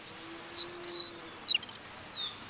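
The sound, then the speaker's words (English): A pampas meadowlark calls in the morning over the flat Argentine grasslands, a few bright, high whistled chirps and short trills in a loose series, heard alone over a faint, steady low hum. “It's the sound of a pampas meadowlark calling in the morning.”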